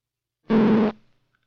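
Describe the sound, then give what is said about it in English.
Synthetic tone made optically from a row of small hand-drawn marks on film: a single low, buzzy, steady note lasting about half a second, rich in overtones, with a short fading tail. “A row of small marks would sound like this.”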